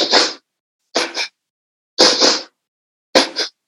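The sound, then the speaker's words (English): Pulse breathing through the nose, done as two pulses in and two out: four sharp, breathy bursts, each with a doubled push, separated by short silences. “And a pulse breath is going to be two pulses in and out using your nose. It'll sound like this.”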